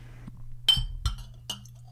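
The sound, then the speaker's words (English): Glass bottles clink inside a fridge as its compressor starts, with three clear, bright clinks spaced unevenly over a low, steady hum. “Kind of hear the glass kind of clinking around when the compressor starts.”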